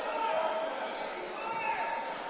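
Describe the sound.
A basketball is dribbled across midcourt during a high school game, its bounces soft and blended into a steady wash of crowd noise while a commentator talks.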